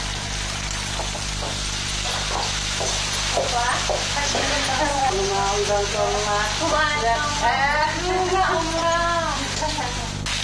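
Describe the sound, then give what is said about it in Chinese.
A pan of Uyghur-style quince pilaf is being stirred and fried, with a steady sizzle and repeated scraping strokes throughout. A voice is heard over the cooking. “早已经开始忙活着做饭了。今天的午餐是吉福当地特色的木瓜手抓饭。”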